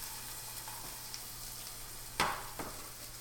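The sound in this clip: Bacon frying in a pan for breakfast, a quiet, steady sizzle over a low hum, broken by a couple of sharper crackling pops near the end.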